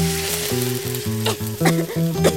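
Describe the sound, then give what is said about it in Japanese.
Bacon fries in a pan until crispy, a loud continuous sizzling hiss with sharper spits and pops, set against a low stepping tonal melody. “次はベーコンをカリッとするまで炒めます。”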